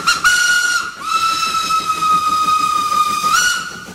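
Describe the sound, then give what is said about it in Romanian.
The Orient Express, arriving from Paris via Hamburg, pulls into a station, its whistle sounding a loud, steady, high tone with breathy hiss in a few sustained blasts, the middle one longest. “Trenul Orient Express din direcția Paris via Hamburg sosește în stație la linia 1”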